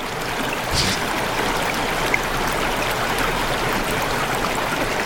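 Liquid pours steadily as bartenders at a bar serve drinks, a continuous trickling, splashy wash that runs without a break, with one slightly louder splash near the start.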